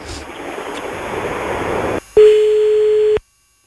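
A steady, single-pitched telephone tone sounds for about a second while calling someone back, after a couple of seconds of washing hiss, then cuts off abruptly into silence.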